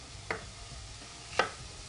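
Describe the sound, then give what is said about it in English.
Two crisp knife chops through a green apple, about a second apart, each a short sharp click with quiet background between them. “After I add that, I'm going to cut up this apple, let that saute a little bit.”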